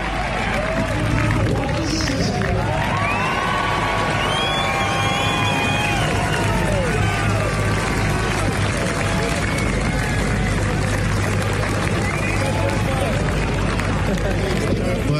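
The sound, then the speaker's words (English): Happy crowd at a cricket match, a dense, continuous hubbub of many voices that stays fairly loud and even throughout, with faint scattered cheers rising out of the general murmur. “There's a happy crowd, and I think the umpires have mentioned the light, and it's a bit dark for the quicks.”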